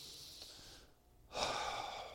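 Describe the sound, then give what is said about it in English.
A slow, deep breath comes as two airy phases split by a brief silence. The second rush of air is louder and fuller than the first. “Take a deep breath. You know what he means, don't you? He goes,”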